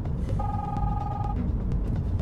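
A mobile phone rings on a car dashboard during a drive, giving one steady electronic tone over a low, constant road rumble.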